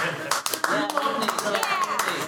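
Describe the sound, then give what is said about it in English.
Audience members clap at a live question-and-answer show, irregular sharp hand claps mixed with people talking over them. “See, now they're clapping and they're confused.”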